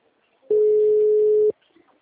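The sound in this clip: A telephone busy signal sounds as one steady, mid-pitched electronic tone lasting about a second, with nothing else around it.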